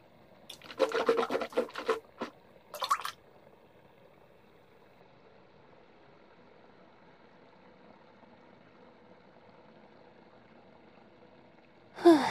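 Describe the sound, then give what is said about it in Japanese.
A toothbrush scrubbing teeth gives a few short bursts of scratchy, bristly rubbing near the start, then a long quiet stretch of low hum, then one brief burst of brushing at the very end. “ふう、歯磨きしながらでもなんとなくは会話できるね。”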